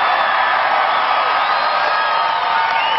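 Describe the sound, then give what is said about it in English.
Enthusiastic crowd cheering at a Mitt Romney political rally in Lancaster, Ohio: a loud, unbroken roar of many voices holding steady from start to finish. “Here was Mitt Romney in Lancaster, Ohio on Friday to an enthusiastic crowd.”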